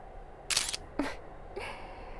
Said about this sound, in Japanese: ほら、撮るよ。